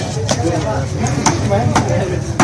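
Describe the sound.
Cleaver chopping large fish at Sher Khan Bandar fish market, four sharp, loud strikes spaced unevenly against a steady bed of voices and market chatter.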